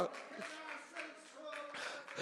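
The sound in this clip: Congregation applauding in a church service as an offering of praise to God: steady, dense clapping that swells and eases in a few waves for about two seconds, mixed with raised voices, at a fairly soft overall level.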